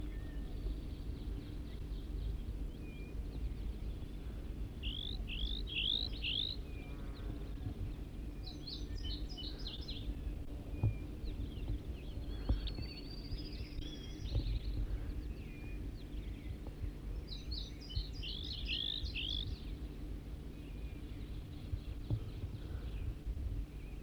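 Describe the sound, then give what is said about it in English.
A wild bird sings a few short, high, chirping phrases spaced several seconds apart, faint over a steady low background hum. “Start recording a wild bird again.”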